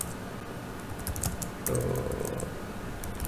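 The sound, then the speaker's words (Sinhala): Computer keyboard keys clack as someone types a value into a spreadsheet formula: a steady run of soft, quick clicks at low volume with no voices. “අපි ගමු example එකක් විදිහට කිතර මොකක් හරි value එකක් type කරමුකෝ.”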